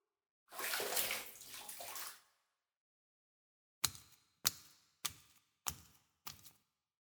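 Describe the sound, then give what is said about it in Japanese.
Water sloshes and swishes in a bath for a couple of seconds, then after a pause five short, sharp splashes follow at an even pace, each dying away quickly. “ほら、いつまでお風呂に入っとうと？うちが背中流しちゃるけん、こっち来て。”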